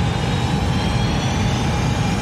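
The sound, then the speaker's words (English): Spacecraft engines applying reverse thrust give a steady, dense low rumble with a broad roaring hiss above it. The sound holds even and loud throughout, with no clear rise or break. “Manual navigation controls online in 2, 1. Green light, applying reverse thrust.”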